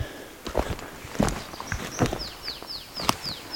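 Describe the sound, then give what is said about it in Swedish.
Footsteps crunch along forest wheel ruts left by a forwarder or harvester, several uneven steps in a loose rhythm, while small birds give quick falling chirps in the background. “Ja, vi går i hjulspåren efter någon skotare eller skördare som har gått fram här, så det är verkligen inte orörda skogar, det är ju helt tydligt.”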